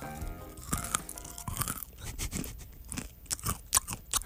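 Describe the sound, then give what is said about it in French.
Crunchy chewing of a snack mix with dark chocolate pieces, many sharp, irregular crackles and bites coming in quick succession, fairly faint throughout. “c'est croquant à souhait. Oh! Le petit chocolat noir, là, ça fait toute la différence.”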